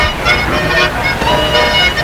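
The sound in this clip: A Rolls-Royce car engine hums as it is started, heard as a steady, loud, broad drone with no clear separate bursts and no voices.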